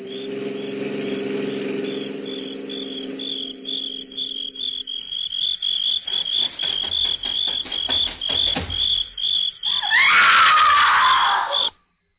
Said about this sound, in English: Roger, listen. Sounds like a woman screaming.